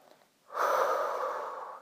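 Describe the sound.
A single deep inhale during a guided relaxation exercise: after a brief quiet moment, a steady, airy rush of breath lasts over a second before easing off.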